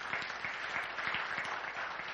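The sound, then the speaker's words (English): Soft audience applause for a guest at a Christian gathering, continuous, fairly quiet clapping with individual claps faintly audible within the wash. “Please give a round of applause to Patrick.”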